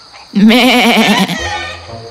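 A sheep bleats once in a loud, quavering call that wavers up and down for about a second, then gives way to a quieter, steady low tone.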